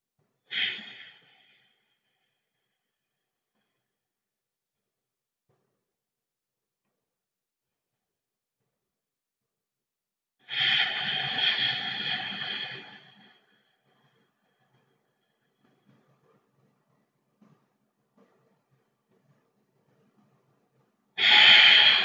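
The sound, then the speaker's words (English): Long, slow, deep breaths taken to center a group, each a soft, airy rush of breath separated by long silences; one full breath lasts a few seconds, with briefer breaths at the start and end. “we're going to begin by just taking some long, slow, deep breaths in order to center ourselves.”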